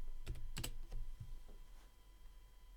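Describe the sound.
Faint keystrokes on a computer keyboard as a password is typed into a settings screen: a few soft, scattered clicks at an uneven pace against a quiet background.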